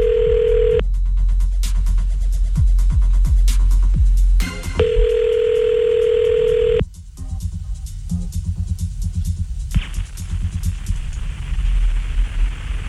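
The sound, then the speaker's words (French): Telephone dialing on a call to Canada: a steady dial tone gives way to a rapid run of dialing key tones and clicks, then the tone returns, followed by another stretch of quick dialing and line noise. “On appelle au Canada, hein, pour être sûr que des gens décrochent, vu qu'il y a 6 heures de moins là-bas.”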